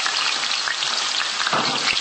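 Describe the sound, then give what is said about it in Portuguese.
Onion, pepper and garlic sauté in olive oil in a pan, giving a steady, dense crackling sizzle that continues without pause and with no talk. “Agora vamos pôr a cebola e o pimento. E vamos colocar também o alho para refogar.”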